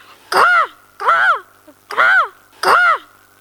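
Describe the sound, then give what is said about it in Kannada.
A crow caws four times, each caw a loud, harsh, drawn-out call, evenly spaced with short silences between. “ಕಾಗೆ ಹೀಗೆ ಶಬ್ದ ಮಾಡುತ್ತದೆ.”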